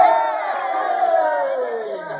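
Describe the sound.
A crowd of townspeople shouts and cheers for a new mayor. A dense, steady mass of raised voices fills the whole stretch and eases slightly near the end.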